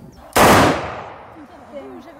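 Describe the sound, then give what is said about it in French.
A gunshot as a gun is fired: one sharp, loud blast that rings out and decays over roughly a second into quiet, with no talk over it. “Il n'y a rien, donc l'arme est claire. D'accord. Donc maintenant, il faut la percuter.”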